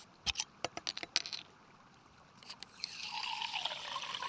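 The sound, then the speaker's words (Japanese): Soda water made from natural spring water at a hot-spring resort being served: a few faint clicks, then a soft, rising fizzing hiss of carbonated liquid, quiet and with no voices. “それではまずこちらをどうぞ。おもてなしのソーダ水になります。”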